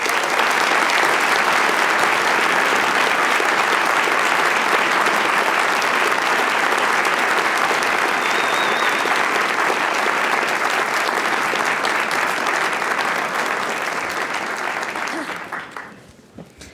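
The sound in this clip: Sustained audience applause welcomes Isabel Wilkerson and Krista Tippett onstage as a loud, steady wash of clapping that holds for about fifteen seconds before tapering off.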